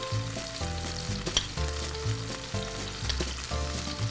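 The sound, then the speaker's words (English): Shaved raw garlic sweating in olive oil in a pan over low heat gives a steady, fairly loud sizzle that runs unbroken through the whole stretch, with no talk. “So now that we have the olive oil in there, I'm gonna go ahead and I'm gonna start sweating a little bit of shaved raw garlic.”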